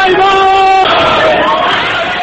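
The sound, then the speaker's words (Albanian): A crowd of protesters chants in the streets of Tehran during the 2009 presidential election protests. Many voices shout loudly in unison, holding a steady pitch before the chant shifts partway through. “Ahmadi lamtumir brohoriste turma e demonstruesve në rrugët e Teheranit në atë kohë”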